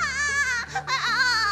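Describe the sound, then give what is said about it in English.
A baby crying: a continuous, high, wavering wail that breaks off briefly near the middle, then resumes just as loud until the end. “I guess you never heard a crying baby because that's what a crying baby sounds like.”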